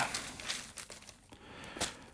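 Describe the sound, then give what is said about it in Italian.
Newspaper pages that had stuck together are pulled apart and turned, giving faint, irregular papery rustles and crinkles. “scusate ma si sono incartate alcune pagine, eccola qui, pagina 9 del Corriere della Sera”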